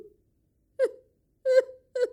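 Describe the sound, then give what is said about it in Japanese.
A middle-aged woman cries in three short, voiced, moaning sobs separated by silent gaps, each a wavering wail that fades quickly. “おばさん泣いちゃった”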